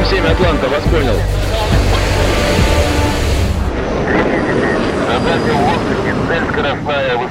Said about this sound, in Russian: С крейсера и ближайших аэродромов взлетают истребители.